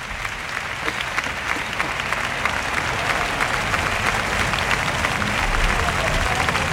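A bullring audience applauds matador Borja Jiménez's faena at a bullfight, a dense, loud and sustained wash of clapping that holds steady throughout.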